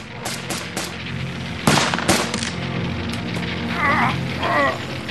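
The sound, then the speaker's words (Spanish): Gunfire mixed with stacked ammunition exploding in a fire started by police grenades, an irregular series of sharp cracks and pops over a steady low rumble. “Cuando la munición apilada empieza a estallar al empezar a extenderse el fuego provocado por las granadas de la policía. De repente, una bala de la policía alcanza el rifle 308 del francotirador.”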